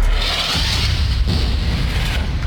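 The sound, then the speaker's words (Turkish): Loud, deep rumble from an Israeli warplane airstrike explosion on a civilian residential area in Deir el-Balah, Gaza. The roar stays steady and heavy throughout, with a broad noisy hiss above it and no single sharp blast standing out. “Hedefte bu kez Deir el-Belah'taki sivil yerleşim bölgesi vardı. İsrail savaş uçakları bölgeyi bombaladı. Saldırı anı kameralara da yansıdı.”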